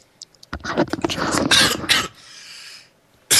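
A man coughs and clears his throat in a dense burst of several harsh, rasping coughs, followed by a quieter stretch.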